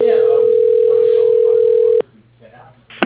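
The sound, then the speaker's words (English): An office phone line rings after an automated directory dials an extension: one steady, loud ring tone lasting about two seconds cuts off with a click, followed by quiet line hiss and another sharp click. “Extension 1, 12. Dialing.”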